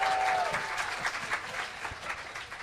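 An audience at a youth seminar applauds a helper. Fairly faint, steady clapping from many hands tapers off slightly over about three seconds.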